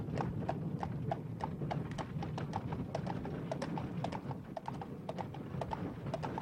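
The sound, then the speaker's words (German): Horses trotting as exiles depart on horseback and in carriages. Their hooves clip-clop in a steady, continuous rhythm of many even beats over a low rumble. “Man hatte sie gewaltsam in die Kutsche gezerrt. Zu Pferde, in Reisewagen brachen die Verbannten auf.”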